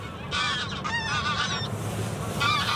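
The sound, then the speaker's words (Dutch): Greylag geese honking, a flock giving a stretch of overlapping nasal, braying calls, a pause, then a fresh burst of honks, all over a steady low background rumble. “Grauwe ganzen. Ja, die zijn wat minder zwijgzaam dan die Middelse zaagbekken.”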